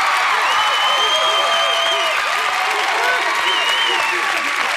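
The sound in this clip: A studio audience claps and cheers to welcome Spuds McKenzie, the dog billed as a celebrity party animal. The applause is loud and continuous, with cheering layered over it.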